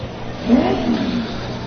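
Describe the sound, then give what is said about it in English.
A truck engine revs before a timed run on a track, its low rumble swelling once and easing back over a steady engine drone. “Port Washington's taking their revs. And they're off the line.”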